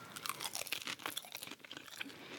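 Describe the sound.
Biting into and crunching a fish finger during a taste test in a dark studio: a quick run of crisp, close crunches and chewing, fairly quiet, with no talk.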